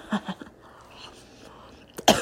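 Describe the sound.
Coughing after sugar from a peanut butter sugar cookie is inhaled: a few short, sharp coughs, a quiet stretch, then a louder, harsher burst at the end.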